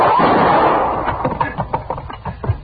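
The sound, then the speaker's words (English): A gunshot in a Western drama: one loud blast at the start that decays over about a second. Men's voices talking follow right after. “Quade shot her, Marshal. He done killed her.”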